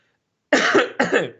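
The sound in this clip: Two sharp, loud coughs in quick succession from someone who choked on their own saliva, heard alone.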